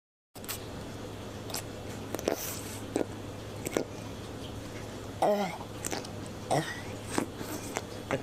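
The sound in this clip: A puffer fish chomps on a carrot in a kitchen, giving a scattering of sharp crunchy bites and softer wet nibbles over several seconds, faint and unaccompanied by talk, after a brief silence at the start.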